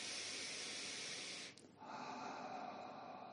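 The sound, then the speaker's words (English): Deep breathing drawn from the back of the throat: one long breathy inhale, a brief pause, then a long, steady exhale. “Come up to the back of the throat. Inhale, exhale.”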